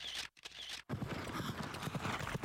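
Horses' hooves clip-clop at a city harness trotting race held at a fortress in Lappeenranta. The rhythmic hoofbeats are loud and dense, with two brief dropouts near the start, and no voices.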